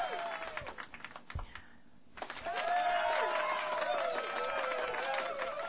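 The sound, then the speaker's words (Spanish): Applause for a birthday celebration, a dense patter of clapping mixed with tonal background sounds, dipping briefly before swelling again and continuing steadily. “Están los aplausos sonando.”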